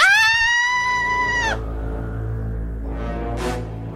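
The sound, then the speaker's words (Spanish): An elderly woman being mugged on the street lets out a piercing, high-pitched scream. It holds steady for over a second, then breaks off with a slight drop, leaving a low hum. “¡Eso ha sido un grito!”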